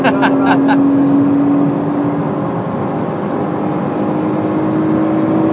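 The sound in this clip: Engine of a car driven fast around 130 toward a blind corner on a track with pit entry, a steady high, droning whine with a harsher roar beneath, continuous and fairly loud throughout.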